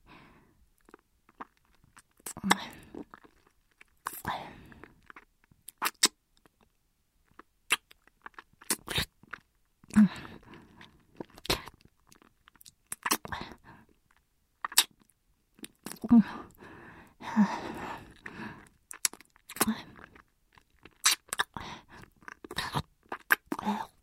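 Licking sounds with saliva: many faint, wet smacks and clicks in irregular clusters, separated by brief pauses.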